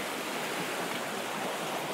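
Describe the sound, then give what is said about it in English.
A river flows around a gentle bend where it widens out, making a soft, continuous rushing of water. The sound is faint and even, with no talk. “I like this bit of the river as well. It's coming around a bend, quite a gentle bend, and it's widening out a bit.”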